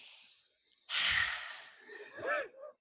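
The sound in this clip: A deliberate deep breath taken during a tapping exercise for anxiety and emotional release: a long, audible rushing inhale follows near silence and is followed by a shorter, partly voiced, sigh-like exhale.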